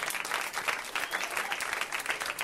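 Audience applause for a married couple at a live show, a steady, even burst of clapping that fills the whole moment.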